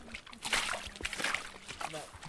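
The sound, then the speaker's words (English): Water of the River Otter near Ottery St. Mary in western England sloshes and trickles in uneven surges, with a voice talking over the flow. “That's the main river otter, just there.”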